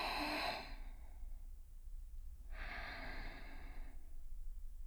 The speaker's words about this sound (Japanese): 大きく息を吸って